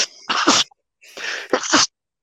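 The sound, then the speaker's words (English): Two loud human sneezes in quick succession, each a short breathy intake followed by an explosive burst, with brief silence between them. “Sorry. I fucking hate sneezing, by the way.”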